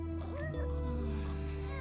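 A cat gives faint, gliding meows over a steady, humming tonal background.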